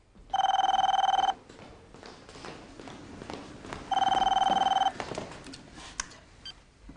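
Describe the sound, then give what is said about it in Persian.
A phone rings in two electronic bursts, each about a second long with a rapid warbling trill, separated by a pause of low background noise. “کجایی؟ گوشیو بردار”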